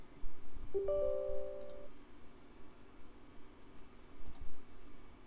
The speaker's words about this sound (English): Now I double click open, which shows nothing.